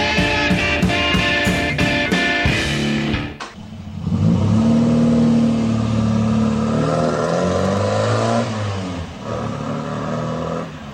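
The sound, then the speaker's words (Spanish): A car engine revs and accelerates loudly, its droning, harmonic tone shifting in pitch as it builds, with no talk over it. “Rápido, a mi coche, lo llevaremos al hospital.”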